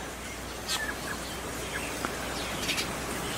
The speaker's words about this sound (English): chirping right over my shoulder here. The wind has died down. So it's just really, really amazing here, the sound of the birds that are my beautiful, beautiful friends.